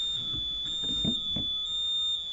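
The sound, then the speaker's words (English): An alarm set off by a power cut sounds as a continuous, steady high-pitched tone, fairly faint, with a few soft low thuds underneath. “Who set the alarm off? When the power went off. Oh, it set the alarm off?”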